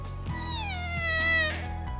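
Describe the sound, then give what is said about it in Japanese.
A kitten found sleeping on the ground and accidentally stepped on lets out one long, drawn-out, high-pitched meow whose pitch gently falls, over faint background noise. “子猫だ。”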